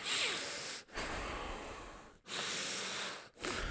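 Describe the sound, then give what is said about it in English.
A voice imitates heavy, labored breathing, as if from a man in declining health: a few long, noisy breaths with short pauses between them, each a steady rasping rush of air, moderately loud and with no talk over it. “like he's always like breathing like real heavy like that.”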